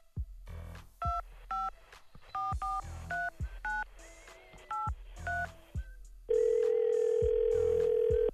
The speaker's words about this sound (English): dial a number